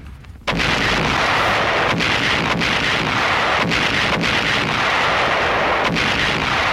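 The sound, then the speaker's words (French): Sound effect of artillery shells exploding in a barrage falling on the Dien Bien Phu camp: a continuous, loud rumbling roar broken by a few sharper blasts, with no voices. “Samedi 13 mars, il est un peu plus de 17h lorsqu'une pluie d'obus s'abat sur Dien Bien Phu.”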